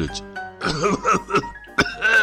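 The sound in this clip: Coughing from a man with a cold who has stood up and turned toward a window; a voice imitates several rough, throaty coughs with some throat clearing, loud and alone.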